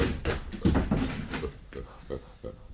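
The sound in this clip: A door being shut in an Arabic radio drama sounds as a few short wooden knocks and thuds, with a voice speaking.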